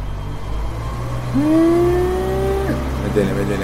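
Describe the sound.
Car engine revving while the car goes into reverse, a steady mid-pitched gear whine that climbs slightly, holds, then drops away over a constant low engine rumble.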